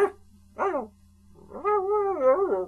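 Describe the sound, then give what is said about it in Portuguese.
A dog gives a short, sharp bark and then a longer, wavering howl-like cry, clear and alone with no talk. “Ladra o que quiseres.”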